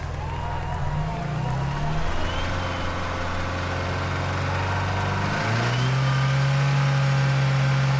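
A limousine's engine revving hard gives a continuous loud mechanical drone that holds steady, then steps up to a higher, stronger pitch late on, with no voices over it.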